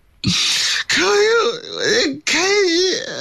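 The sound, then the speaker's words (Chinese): A performer's voice imitates crying from tears of joy in a spoken storytelling act. It comes as three loud, drawn-out wailing sobs with a wavering, quivering pitch and brief gaps between them. “您甭哭啊，怎么着这？我这叫喜极而泣啊！”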